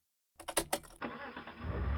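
A DeLorean engine starting: a few sharp starter pulses crank in quick succession, then the engine catches into a loud, steady roar that swells toward the end.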